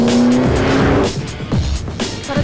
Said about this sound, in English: Vanessa swerves around a couple of cars